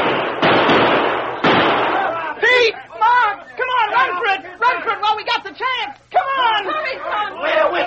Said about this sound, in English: Watch out! They're going to shoot! Watch out! Pull down, Tonto, down! Let them have it!